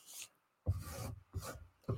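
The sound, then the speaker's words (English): Quiet scraping as a tool works up ink paste made from ink sticks, used like a palette knife: a few short, rough, rasping strokes separated by brief silences, with no talk. “So if you wanted to, you could like scrape up the paste like this. I mean, this is almost like a palette knife in a way, what I'm doing here.”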